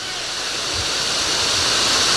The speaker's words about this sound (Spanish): Ahí está la tormenta.